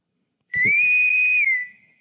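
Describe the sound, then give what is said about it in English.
A whistle sound effect from a classic science-fiction TV series: one clean, bright tone that rises slightly, holds steady for about a second, then dips and fades away. “Yeah, that's the Star Trek whistle.”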